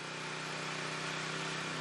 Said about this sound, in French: C'est le générateur qui chauffe la tente.